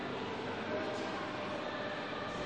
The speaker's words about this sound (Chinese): 我已经看到了咱们首发列车。 9:16正式开车。 这是一趟复兴号列车。